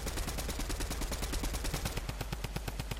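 Rapid automatic gunfire from a weapon in a video game, many sharp shots in a fast, steady rhythm, loud and continuous with no talking.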